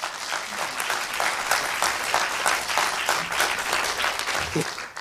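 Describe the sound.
An audience applauds steadily to welcome a gardening question panel, including an experienced horticulturist, onto the stage, a dense, even patter of many hands clapping that keeps up for about five seconds.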